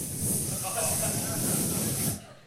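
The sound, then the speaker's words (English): A voice imitates an air mattress leaking air with a single steady, breathy hiss that lasts about two seconds before cutting off. “tss. He's like, is my mattress leaking?”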